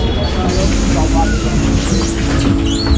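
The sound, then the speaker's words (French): City bus on line 56 pulling into a stop in Paris, bound for Château de Vincennes: a loud, constant roar of engine and road noise with hiss on top, while people talk over it. “Ah, voilà le bus. Bus 56, direction Château de Vincennes.”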